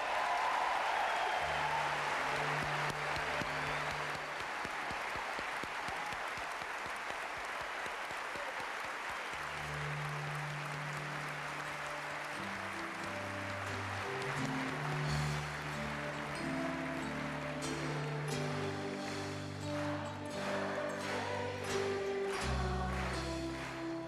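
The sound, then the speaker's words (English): An audience sings happy birthday to Eurovision winner Johnny Logan. A burst of loud applause leads into many voices singing together, with clapping lingering beneath the steady group melody. “That was the audience celebrating Johnny Logan's birthday by singing him happy”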